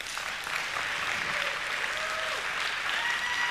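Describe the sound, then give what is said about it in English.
An audience at a Resurgence Edmonton ministry gathering applauds warmly to welcome a speaker to the stage. The clapping is dense, steady and continuous throughout. “why don't you give a really warm welcome tonight as David Hearn comes.”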